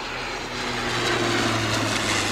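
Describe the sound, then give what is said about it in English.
A small propeller plane flies overhead, a steady droning engine hum with a low constant tone over broad rushing noise that grows slightly louder partway through and then holds. “Small little mosquito kind of plane.”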